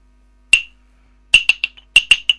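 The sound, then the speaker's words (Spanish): Wooden claves struck by a child give bright, sharp, ringing clicks: one single strike, a pause, then a quick irregular run of about seven more taps, one of them faint. “yo creo que esas son unas claves”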